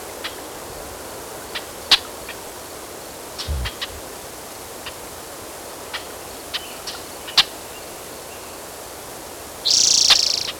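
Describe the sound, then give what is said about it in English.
Blackbirds call in short, sharp, scattered chirps over a quiet hiss, a few louder than the rest, ending with a longer, louder high call. “There's blackbirds.”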